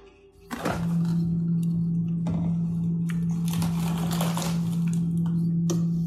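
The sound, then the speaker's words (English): A bowl covered in beeswax wrap goes into a freezer, with a thunk, then light crinkling and handling noises over a loud, steady low hum that starts just after the thunk. “cover my bowl with my beeswax wrap and stick it in my freezer”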